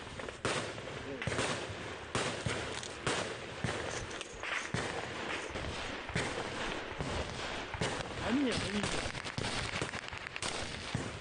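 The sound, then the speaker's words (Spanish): Gunfire from Ukrainian troops shooting at a Russian drone flying overhead: many sharp, irregular cracks and bangs, some close together, over a continuous rough background noise. “Un dron ruso sobrevolando. Los ucranianos abren fuego.”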